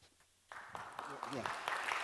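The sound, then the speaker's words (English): An audience at a church gathering breaks into clapping after a brief hush. Voices rise over the steady applause as it continues. “yeah, why are we clapping? We're clapping because that's why we do it.”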